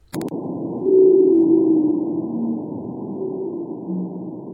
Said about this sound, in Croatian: Snimke Chagos pygmy blue whale, pigmejskog plavog kita, napravljene su pomoću detektora nuklearnih bombi smještenih na dnu Indijskog oceana.